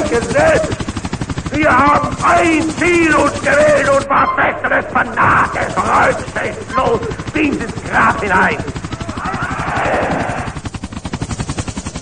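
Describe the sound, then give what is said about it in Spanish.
Helicopters approaching: a rapid, steady thudding rotor chop runs throughout, loud and continuous, with a person talking over it for much of the time. “Estamos escuchando algunos helicópteros que se están acercando a Goga.”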